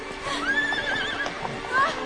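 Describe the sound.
A horse whinnies with a wavering, high-pitched cry while its hooves clop beneath it, galloping downhill along a snowy track.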